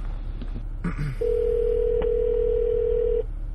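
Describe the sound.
Ringback tone of an outgoing telephone call: one steady electronic ring lasting about two seconds, after a few brief clicks and tones, with no voices.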